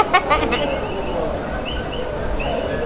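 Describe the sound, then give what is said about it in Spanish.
Coquí frogs call in a few short, high chirping notes scattered over a steady background hiss, faint and brief, with a soft burst of clatter near the start. “Los coquí están cantando, eso me gusta.”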